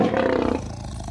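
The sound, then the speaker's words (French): A lion roars once, a short, loud, rough and low-pitched bellow that eases after about half a second into a quieter, grumbling tail. “Au sixième, ça parle des lions.”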